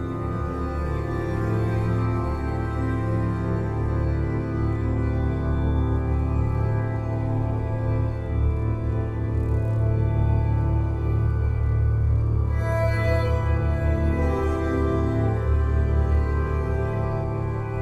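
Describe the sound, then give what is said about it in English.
Long sustained tones from strings bowed with nylon strands form a dense, droning harmonic texture that stays steady and full throughout, its layers shifting slowly. “The long sounds you're hearing are made by bowing the strings with nylon strands.”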